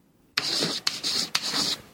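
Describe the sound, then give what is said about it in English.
Chalk scrapes across a chalkboard as a writing sound effect: after a short silence come three long, gritty strokes with brief gaps between them, then the start of another right at the end. “That chalkboard writing could only mean one thing.”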